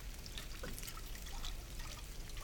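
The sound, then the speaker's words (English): Liquid swirling as a potion is stirred slowly with a ladle, a steady, watery trickling and sloshing that continues without a break and without voices. “Now we stir. Take your potion ladle and stir slowly, 4 times counterclockwise.”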